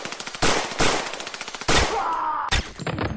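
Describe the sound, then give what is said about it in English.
Gunfire from a gun in an audio drama: a few loud, sharp blasts stand out among rapid, repeated smaller pops, forming a dense, chaotic volley. “That was a gun in your pocket.”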